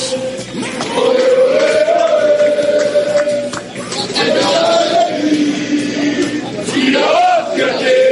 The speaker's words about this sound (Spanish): Sonido que ya es lo que predomina en las calles de Dortmund, con la gente cantando y con todo el mundo esperando a que llegue el encuentro de esta noche